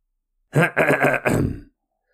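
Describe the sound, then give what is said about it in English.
A person clearing their throat in three quick, rough, guttural bursts close together, heard alone against silence. “I pushed a button and cleared my throat.”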